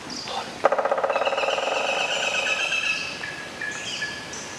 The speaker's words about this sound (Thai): มาตั้งใจฟังเสียงนกหัวขวานเจาะโพรงไม้กันดีกว่านะคะแล้วก็จดจำไว้เลยค่ะเข้าป่าเมื่อไหร่ถ้าหากว่าได้ยินเสียงนี้มองหานกหัวขวานได้เลยค่ะ